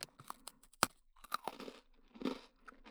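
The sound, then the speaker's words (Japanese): A pet eating snacks, faint and alone: irregular crunching and chewing with a few sharper bites scattered among softer mastication sounds. “おやつ食べてる間”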